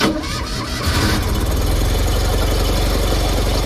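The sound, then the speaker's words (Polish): A Fiat 125p car engine, built by FSO in Warsaw, runs loudly with a deep, steady rumble and a rough mechanical texture throughout, with no voices. “W roku 1991 warszawska FSO zakończyła produkcję Fiata 125P, który brzmiał tak.”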